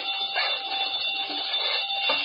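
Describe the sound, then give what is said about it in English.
A burglar alarm wired to a safe rings without pause, a loud, shrill, steady electric bell tone that holds at an even level from start to finish. “Safe connected with burglar alarm.”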